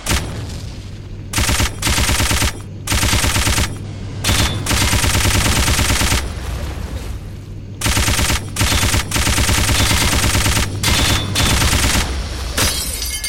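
Machine-gun fire in a video game: loud bursts of rapid shots separated by short gaps, repeating many times over a steady low hum.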